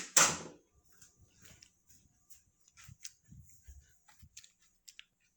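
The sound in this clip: A pantry door is pulled open with one loud clunk at the start, then faint scattered clicks and rustles.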